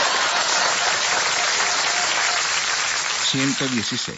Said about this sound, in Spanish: Aplausos para ellos.